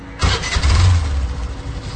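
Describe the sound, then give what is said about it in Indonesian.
A motorbike engine starts with a sudden burst, then settles into a steady low rumble heard alone. “aku bergegas pergi ke garasi untuk mengambil motor dan menghidupkannya.”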